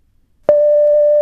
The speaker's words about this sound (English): So here are some of your brief thoughts on the long dash.